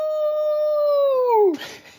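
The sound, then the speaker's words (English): A man's voice imitating an old hound dog howl: one loud sustained tone that holds steady and then drops in pitch at the end, followed by a short breathy trailing noise. “are you ready to sort of close us out with your best old hound dog howl?”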